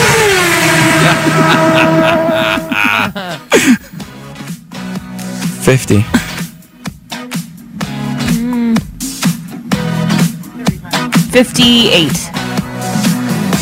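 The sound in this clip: A NASCAR race car engine revs loudly, its pitch sweeping at the start. It then breaks into choppy, stuttering bursts of roaring engine noise.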